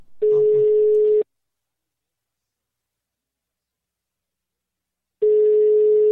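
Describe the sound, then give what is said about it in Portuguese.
A telephone call ringing on the line, heard as two long, steady buzzing tones separated by about four seconds of silence. “Ó, tá chamando.”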